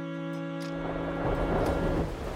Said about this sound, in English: It begins to rain.